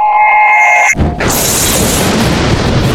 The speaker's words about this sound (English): Not as good as my heat ray. No. Let's just hear the heat ray.